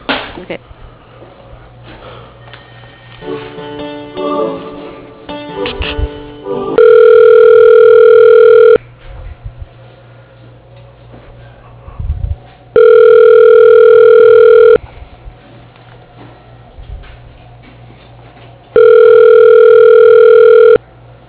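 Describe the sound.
Telephone ringback tone plays while an office call is transferred to a colleague's voicemail. Three long, steady, loud buzzing rings are separated by pauses, after a stretch of faint, cluttered noise at the start.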